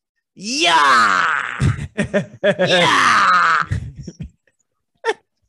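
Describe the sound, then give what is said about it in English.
A voice imitates a friend vomiting with a hangover: a long strained retching groan that slides in pitch, choppy gagging bursts, a second drawn-out heave, then a short final gasp after a pause. “He just starts fucking vomiting.”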